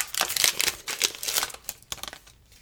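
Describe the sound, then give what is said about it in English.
A wax pack of Panini Capstone baseball cards being torn open, with many quick bursts of crinkling and ripping wrapper that come in uneven rapid clusters and grow sparser toward the end. “Let's just open one more. That'll give us 15 cards like the old day packs. Let's see what we get here. Be careful opening.”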